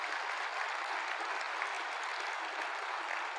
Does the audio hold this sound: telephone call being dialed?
no